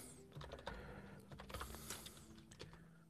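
Fingers tap on a computer keyboard while participant names are typed into a page, many quick irregular keystroke clicks, faint and continuous.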